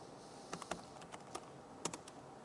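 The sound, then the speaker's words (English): Typing on a computer keyboard while building a boot image: an uneven run of crisp, light key clicks, several keystrokes in quick bursts with short pauses, with no voices. “let me create a boot image. Except I can't type.”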